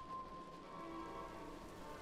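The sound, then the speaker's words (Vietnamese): Heavy rain pours down in a dense, steady hiss of countless drops, even and unbroken from start to finish at a low, constant level. “từng giọt mưa nặng hạt cũng theo đó mà kéo nhau rơi xuống càng nhiều”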